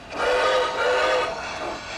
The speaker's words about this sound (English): She drags her parents and grandparents over to a set of tracks with tiny trains chugging along.